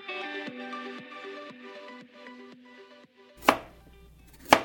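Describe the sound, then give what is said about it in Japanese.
Food is chopped while a mother cooks in the kitchen: soft tonal music plays for a few seconds, then two sharp, loud knife chops land about a second apart. “ここはキッチンですお母さんが料理をしています”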